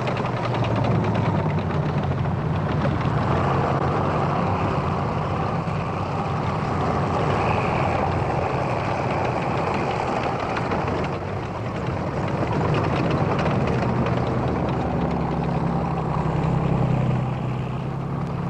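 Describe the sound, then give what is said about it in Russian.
Tanks driving past on a road, a heavy, continuous engine roar with low rumbling and grinding that holds steady, briefly easing before swelling again. “Машина съезжает с дороги. Танки проезжают мимо.”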